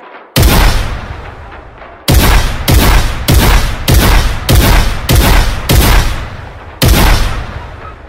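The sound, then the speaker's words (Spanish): Nine loud, sharp shotgun blasts are fired at the facade of a mosque entrance, spaced roughly half a second to a second apart. Each blast leaves a brief booming decay, with a longer pause after the first and before the last. “Sin ninguna conmiseración, el atacante descargó toda su escopeta contra la fachada del lugar, cobrándose su primera víctima.”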